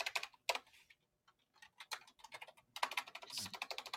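Keyboard typing: many quick, irregular keystrokes clicking in bursts, with a brief lull near the start before the tapping resumes and grows denser, with no voices.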